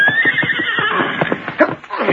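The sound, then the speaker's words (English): A horse neighs loudly in a long, shrill whinny that wavers in pitch, with rhythmic low thuds running beneath it. “Fine horse you got there”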